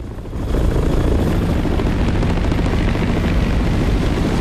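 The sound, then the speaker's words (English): Military helicopters descend near a road, their rotors making a dense, steady roar that swells within the first half second and then holds at a constant loud level. “Smoke and dust continues to swirl around the wreckage as the choppers descend.”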